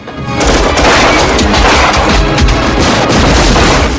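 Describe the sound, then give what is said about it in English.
Gunmen open fire all round in a film action scene as floats explode, a loud, continuous barrage of overlapping gunshots and booming blasts with no pause. “As Chance rushes for cover, gunmen open fire all round. Sparks fly as floats explode.”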